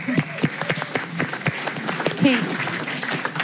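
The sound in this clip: An audience applauds a woman at the end of a question session, a scattered patter of claps running steadily under people talking.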